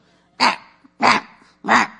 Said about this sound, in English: My little dog barks to boss us around.